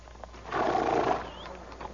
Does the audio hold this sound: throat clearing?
no